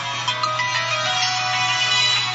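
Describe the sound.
A phone ringtone sounds during a radio interview, a steady, loud electronic tone that continues through the whole moment with no one talking.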